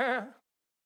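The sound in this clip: A voice imitates a sheep's bleat: one short, wavering, nasal 'baa' that fades quickly and then stops, leaving silence.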